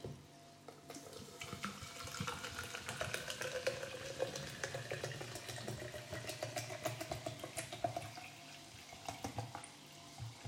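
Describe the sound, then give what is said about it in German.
A carbonated drink is poured from a bottle, making a steady stream of fizzing, crackling liquid with many tiny bubbling pops throughout at a fairly quiet level. “Naja, da ist Kohlensäure drin. Genau, jetzt gießen wir das ein.”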